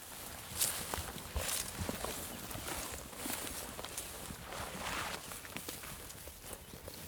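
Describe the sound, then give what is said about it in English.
Footsteps stride through grass and shrub on the steppe along the outer wall of Arkaim, a faint, steady series of soft rustling steps with occasional sharper brushes. “What are we walking along now? We seem to be striding out through the grass and the shrub.”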